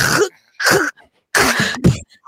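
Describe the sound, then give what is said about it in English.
A person imitates a man's snoring with a few harsh, throaty snorting bursts separated by short silent pauses, loud and close. “he would snore and he'd go.”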